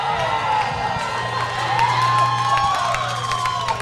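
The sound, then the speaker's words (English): Crowd cheering a Riverside goal at a League One soccer match, a continuous roar laced with high whoops and whistles, riding over a steady low hum. “And that is the sound of another Riverside goal.”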